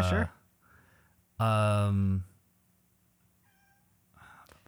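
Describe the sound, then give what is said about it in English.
A cat meows: one long, loud, drawn-out cry with rich harmonics, preceded by a shorter sharp cry, with faint low voices in the quieter gaps around it. “Is that your cat or my cat? That is my cat, yeah. Okay, cool. All right. She's freaking out.”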